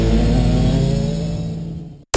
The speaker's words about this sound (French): Prenez le volant des kartings fonctionnant au bioéthanol. À fond dans la ligne droite.